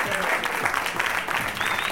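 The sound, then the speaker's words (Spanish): A recorded applause sound effect plays: dense crowd clapping, steady and full, that fills the two seconds without a break. “Un aplauso, claro que sí, pon un aplauso, pon todo lo que sea.”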